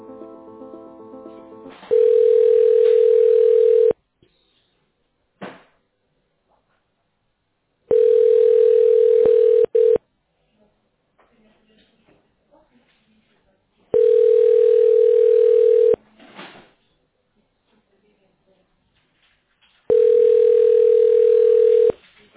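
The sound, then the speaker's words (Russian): Four long, steady telephone tones sound on the line while a call is transferred to an accountant. Each lasts about two seconds and repeats at even intervals, with faint small noises in the quiet gaps. “Давайте я вас сейчас просто переведу на главного нашего бухгалтера, зовут Ирина.”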